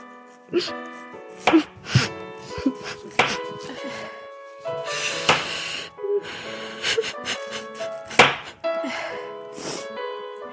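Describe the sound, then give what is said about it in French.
Knife chopping onions on a board, with many sharp, irregular chops at varying loudness and short gaps between them. “Vous en avez marre de pleurer en épluchant les oignons”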